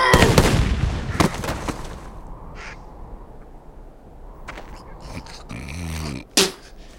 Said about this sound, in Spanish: ¡Preparados! ¡Apunten! ¡Fuego!